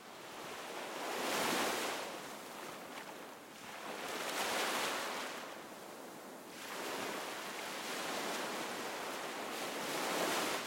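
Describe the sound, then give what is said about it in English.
Ocean waves from a sound library sample give a broad, hissing surf that swells and recedes in slow, regular surges about every three seconds. A continuous wash fills the gaps between the surges. “So let me just play you the original ocean sound that I found in the sound library.”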